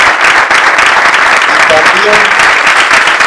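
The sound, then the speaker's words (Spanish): Loud, sustained applause from a crowd at a political speech, a dense steady clatter of many hands, with a faint voice briefly breaking through underneath. “le enviamos un aplauso para Axel, para el ministro Pecha”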